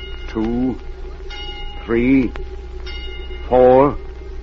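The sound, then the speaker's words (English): An alarm bell at a tunnel entrance, triggered by an electric eye, rings in a few separate short bursts with pauses between them. The ringing is loud and clear over faint background hum. “Count the number of times that bell rings.”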